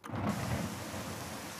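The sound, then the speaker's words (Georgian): Steady rain falling, a sound effect triggered by pressing a key, heard as a loud, constant hiss with a low rumbling undertone and no voices. “წვიმა მოდის.”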